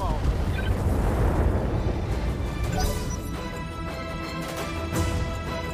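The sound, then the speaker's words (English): Mech weapons fire and an explosion in a video game, aimed at a downed mech: a loud, continuous roaring rumble with crackling bursts that holds steady from start to end. “But we're gonna fire at the downed mech.”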